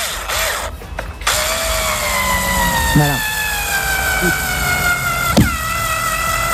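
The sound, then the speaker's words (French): Electric screwdriver driving a screw, fitted with the wrong bit: a loud, high motor whine whose pitch slowly drops while it runs, with a few sharp clicks, and one brief spoken word partway through. “C'est bien une visseuse électrique. Alors, on se disait, oui, c'est vrai, il y a des appareils qui servent à visser et à percer aussi. Mais là, elle était bien en train de visser. On va la réécouter d'ailleurs, la visseuse.”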